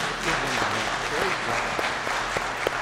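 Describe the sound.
A church audience at Berry Christian Church applauds its new members with steady, dense clapping that continues throughout, with some voices mixed in.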